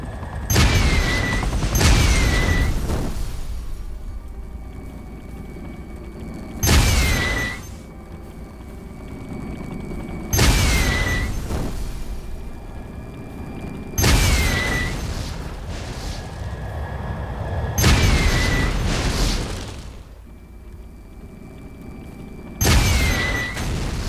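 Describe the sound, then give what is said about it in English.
Video game rockets, nukes and machine gun fire erupt as a series of loud booming blasts, each followed by a short whistling tone, with quieter rumbling gaps between the repeated bursts. “Rockets. Nukes. Machine gun. Rockets.”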